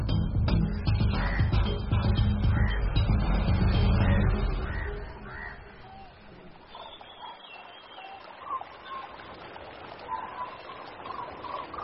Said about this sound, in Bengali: এক ঝাঁক সারস পাখি জল খেতে নেমেছে। বগুলা পাখিরা এখানেই ঘোরাফেরা করছে